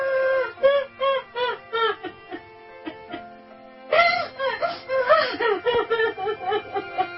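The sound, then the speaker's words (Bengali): A person crying and wailing for their father: loud, repeated wavering sobs and moans in rhythmic bursts, with a brief quieter stretch before the wailing surges again. “দেখুন যে বাবার জন্য কিভাবে কাঁদছে।”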